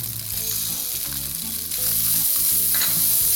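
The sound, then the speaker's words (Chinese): Green peppers stir-fry in a wok over high heat, giving a continuous loud sizzle with stirring throughout, and the sizzle grows louder partway through. “好，香气都出来了，这时候我们要炒青椒。 好的， 下青椒，一样都大火哦。”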